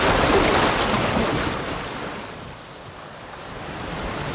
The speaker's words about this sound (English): Out at sea, landing crafts loaded with GIs bounce through heavy surf.